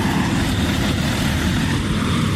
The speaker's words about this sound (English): Here comes the truck in now. I wonder what that truck's got in it.